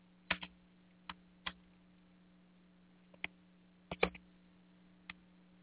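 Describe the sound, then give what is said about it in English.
Sparse typing on a computer keyboard: about ten crisp, isolated key clicks in irregular bursts with long pauses, over a low steady hum. “Hang on just one second. I got to type something. Yeah, it's my show. I can type if I want.”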